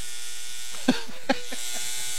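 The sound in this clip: Faint electric buzzing of a vibrator heard from behind a closed door: a steady, low hum with two brief soft thumps partway through.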